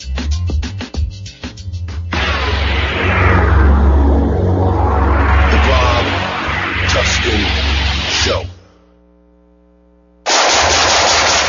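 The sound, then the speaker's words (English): Loud gunfire from shooting. Rapid bursts of sharp shots give way to a long, continuous roar of sustained fire, then a near-silent pause, and then a final loud burst. “Nice shooting.”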